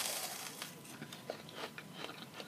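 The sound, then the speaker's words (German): Biting into a crunchy meringue, then a quick series of faint, crisp crunches and crackles as it is chewed, each one short and brittle. “du hast noch gar nicht in deinen hervorragenden Baiser gebissen. Ich habe hier noch gar nicht reingebissen. Ich beiß mal rein.”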